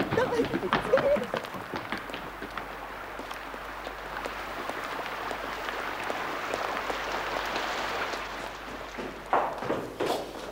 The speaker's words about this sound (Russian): Ой, дождик. Ой, надо же, а я зонтик забыла.